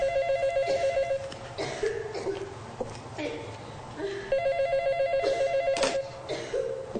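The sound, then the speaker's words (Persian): A telephone rings in repeated bursts of bright, trilling rings separated by short pauses, fairly faint against a low background hum. “زن میره طرف گوشی تلفن.”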